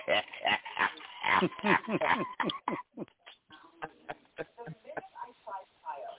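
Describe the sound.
A dog whimpers and cries in many high, wavering whines and yelps. They come in a rapid run at first, then turn sparser and more broken.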